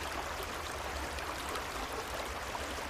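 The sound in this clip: A quiet creek flows steadily, its soft, even rush of water continuing unbroken without any distinct splashes or voices.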